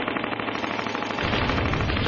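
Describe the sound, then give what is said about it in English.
A sci-fi zap gun fired at full power gives a dense, loud stream of rapid buzzing shots with no pause. The blast grows heavier and deeper partway through. “I'll only get one crack at this while he's distracted. Zap gun on full power.”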